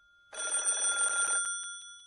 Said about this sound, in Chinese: 接二连三的电话声在国民党军统局戴老板的桌案上响了起来。